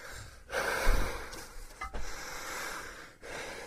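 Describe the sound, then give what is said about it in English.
Heavy, out-of-breath breathing with a few rough, gasping breaths and snorting exhalations, faint and without speech. “I made it just in time. I'm so out of breath”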